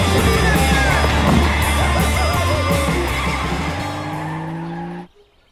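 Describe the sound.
A car starts off with its tires skidding: a loud, harsh squeal over a revving engine whose tone climbs before the sound cuts off abruptly at the end.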